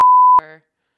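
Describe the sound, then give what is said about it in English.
A single censor beep bleeping out a name: a pure, steady mid-pitched tone lasting under half a second, cut off into a brief buzzy tail before silence. “I gotta beep a lot of names now.”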